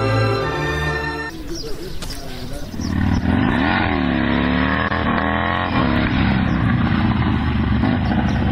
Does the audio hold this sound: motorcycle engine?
yes